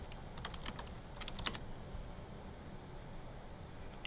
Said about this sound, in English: So we typed in Centerville AC Repair, CJS Heating and Air.